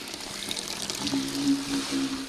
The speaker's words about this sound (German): Der Saft wird in Fässer aus Kunststoff gefüllt, in denen er dann in den nächsten Wochen zu Wein vergärt.